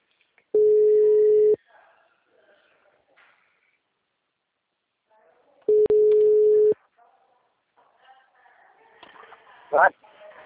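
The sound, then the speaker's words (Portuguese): Telephone line tones sound while a call is placed: two steady mid-pitched beeps, each about a second long and several seconds apart, with faint line noise and a brief warbling chirp near the end. “Espera aí que eu vou fazer uma ligação.”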